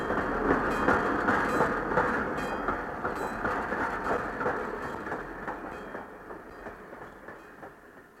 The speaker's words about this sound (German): Alles auf dem Bahnhof schwenkte die Mützen, als der Zug aus der Bahnhofshalle fuhr und mitten in die Weihnachtsferien hineinschnaufte.